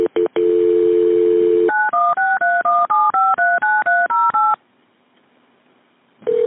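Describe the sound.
Telephone touch-tone dialing while connecting a call to the state police: a steady dial tone gives way to a quick, even run of beeping keypad tones at shifting pitches, then silence before another tone starts.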